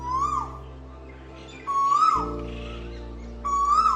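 A bird calling in a small green space within a city, three clear whistled notes spaced evenly apart, each rising and then dipping, over a steady low hum.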